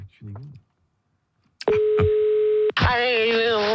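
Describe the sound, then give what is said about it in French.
A telephone call being placed to a radio listener: a click, then a steady low-pitched line tone holding for about a second, then another click. Brief talk comes before the call and a voice follows it. “J'appelle quelqu'un qui s'est inscrit au Anière 12-12. Je l'appelle”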